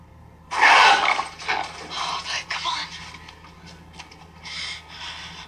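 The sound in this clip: A dog barks a few times in short, loud bursts. The barks stand out against a low background, and human voices can be heard as well.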